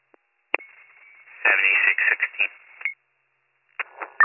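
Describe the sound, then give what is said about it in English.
Thin, band-limited telephone-line audio from a returned call that reaches voicemail: a click and a steady tone, then choppy bursts of sound broken by stretches of silence. “I attempted to call him back. This is the voicemail.”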